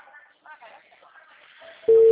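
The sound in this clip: A telephone line tone sounds while a call is placed. It is a steady, unbroken tone that starts abruptly near the end, after faint, quiet talk.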